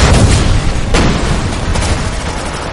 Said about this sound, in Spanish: lanza una granada al interior del local.